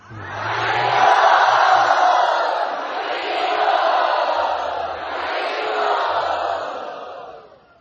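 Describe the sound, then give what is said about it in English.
Crowd chanting loudly together to thank the hosts at a devotional gathering, a massed chorus of voices in long, swelling phrases that rise and ease in about three waves before fading out at the end. “Let us thank them by loudly chanting.”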